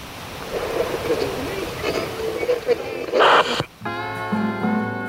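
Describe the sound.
Waves crash on a shoreline where thick forest comes straight down to the water, a steady rushing surf with one louder surge. Music begins near the end.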